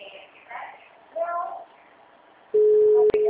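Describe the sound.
Telephone ringing tone on a call: after a few short stretches of speech, a steady mid-pitched tone sets in and holds loudly to the end, broken by one brief dip.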